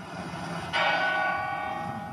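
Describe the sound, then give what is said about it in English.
A city bell tolls during a funeral in Boston. One strike sounds shortly after the start and leaves a bright, ringing tone that lingers over a low background hum. “Bells around the city of Boston rang as the casket carrying former Boston Mayor Thomas Menino was loaded onto a hearse that would carry him to his funeral in Hyde Park.”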